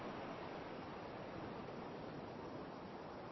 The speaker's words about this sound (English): hearing that ocean now as you sit and relax in your own private spot on this beach.